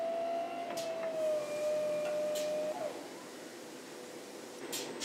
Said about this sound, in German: Und dann pumpt die Maschine erstmal innen die Glasur rein. Das Klo läuft voll bis unter den Rand.